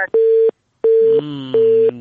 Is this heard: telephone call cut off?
yes